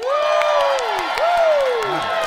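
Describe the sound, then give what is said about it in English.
Crowd cheering and whooping from a live audience at a VidCon London stage show, a dense steady roar with a couple of long, falling whoops rising above it. “Really, your woo definitely translated that. yeah. Really good use of the stock sound effect.”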